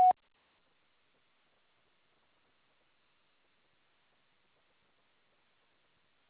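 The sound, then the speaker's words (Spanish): An answering machine tone before recording a message: one very short, clear beep at the very start, followed by silence. “Nada ha sido grabado. Después del tono, grabe su mensaje.”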